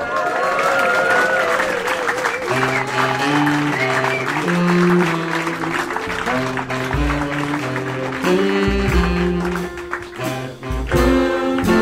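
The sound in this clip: Audience applause welcomes a performer on his birthday at a concert. Dense, sustained clapping blends with steady instrumental music playing throughout.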